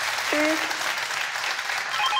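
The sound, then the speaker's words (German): Studio applause for a radio quiz caller: a short burst of steady, even clapping that fills the whole moment at a constant level. “Der Applaus zu Ihnen.”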